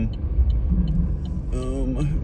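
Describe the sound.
Car wheels spin on a slippery road junction on the A96 under a steady low engine rumble. Near the end a brief tonal whine climbs in pitch as the tyres lose grip.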